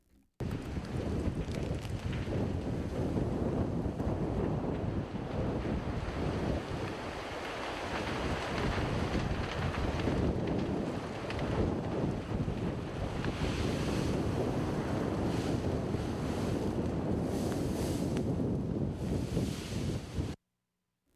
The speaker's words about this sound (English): Here's the sound of wind and wildfires burning in the Los Angeles area.